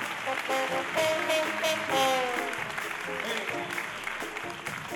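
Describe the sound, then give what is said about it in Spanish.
Applause from a concert audience at a theatre, honouring a big band musician: steady, dense clapping that runs through the whole stretch with a voice and tonal sounds over it. “¡Fran, un aplauso para él!”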